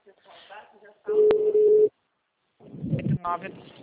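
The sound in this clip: A phone call's ringback tone: one steady, even beep lasting about a second, with talk before and after it.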